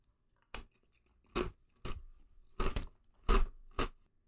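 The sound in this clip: Crunching a Pringles potato crisp: six sharp, crackly crunches spaced over a few seconds, loud against near silence.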